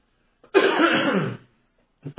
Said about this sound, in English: I'm going to cough one more time.